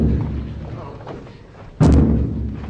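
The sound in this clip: A knock on a door in a stage drama: one heavy, loud thud that stands out sharply from a quieter background of voices.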